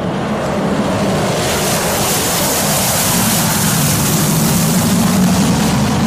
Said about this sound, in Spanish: Así sonaba el Concorde